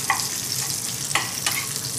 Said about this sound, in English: Chop that up. Onion and bacon in. That smells incredible.